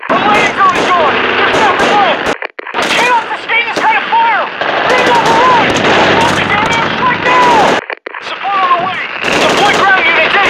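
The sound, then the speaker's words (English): Machine-gun fire and explosions in the military shooter video game Call of Duty: Ghosts: loud, nearly unbroken bursts of automatic gunfire with shouted voices over the top, pausing only briefly twice. “We're under heavy fire, Command!”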